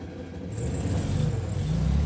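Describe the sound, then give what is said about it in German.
A Volkswagen Beetle pulls away in first gear onto a federal road from Stein toward Gutzberg, its low engine note swelling from a quiet idle into a steadier, louder drone. “Los geht's, erster Gang und ab auf die Bundesstraße von Stein aus in Richtung Gutzberg. Wenn ich mit dem Käfer unterwegs bin, dann will ich einfach nur Spaß haben.”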